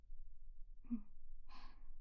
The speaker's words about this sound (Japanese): じゃあ、ゆっくり深呼吸して。